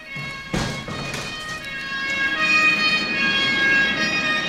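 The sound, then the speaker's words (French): Sirens wailing during a fire, coming in after two dull thuds and swelling into a loud, sustained high tone that holds to the end. “Qu'est-ce que c'est que ça? Les sirènes.”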